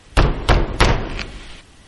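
Knocking on a wooden door: three loud, heavy thuds in a quick, even rhythm, followed by a fainter trailing tap, with a soft resonant decay after each blow.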